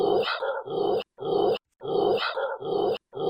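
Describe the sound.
Dogs growl and bark as a puppy attacks a bigger dog, lunging at its neck, with loud snarling barks that come in several bursts broken by brief silent gaps.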